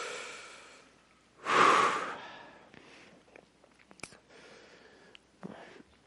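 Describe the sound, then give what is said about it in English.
A preacher taking one deep, audible breath during a church sermon, a loud rushing inhale that quickly fades into faint breathing and small rustles. “I need to take a breath real quick.”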